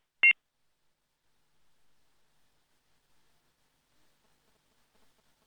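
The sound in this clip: A single short, sharp electronic beep as a telephone call is cut off, followed by near silence with only faint rustling.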